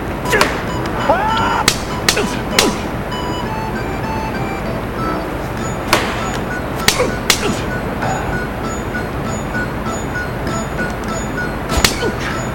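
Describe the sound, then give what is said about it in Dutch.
Sharp slaps to the face ring out during a game scene in a Netflix series. A few loud, crisp smacks are scattered across a low, steady background. “Ja, je hoorde hier dus de man helemaal in het begin van de serie het spel spelen. Het beruchte spel, als je verliest krijg je een slap in je gezicht.”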